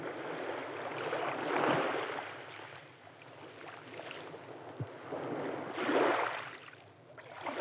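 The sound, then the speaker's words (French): Sea sounds on a sunny day at the shore: a steady, airy wash of water rises into two broader surges, with soft rushing noise throughout. “Écoutez les sons de la mer.”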